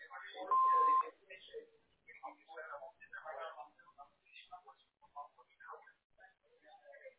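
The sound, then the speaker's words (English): Answering machine beep: one steady, clean electronic tone lasting about half a second, followed by a voice talking. “Hello, we are not available now. Please leave your name and phone number after the beep.”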